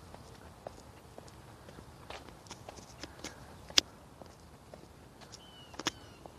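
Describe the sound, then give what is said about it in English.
Footsteps of a person walking outdoors: faint, irregular steps with a couple of sharper, louder footfalls standing out against a low background hiss. “I'm out. I'm walking”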